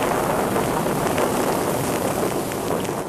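Rain falls in a church garden as a dense, steady hiss that holds evenly at moderate loudness for the whole stretch, with no voices.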